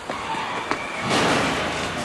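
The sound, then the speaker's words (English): A car crashes into a mailbox: a couple of brief knocks, then a louder, sustained noisy crunch and rumble that holds to the end. “What the hell is that? What happened? Looks like somebody took out our mailbox.”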